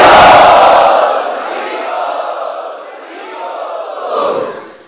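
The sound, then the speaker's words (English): A crowd loudly chanting "Hari Bol" in welcome at a Hare Krishna gathering: a massed chorus of raised voices that opens loudest, then continues in a few rolling swells of shouting before fading out. “And so let us welcome them by loudly chanting Hari Bol.”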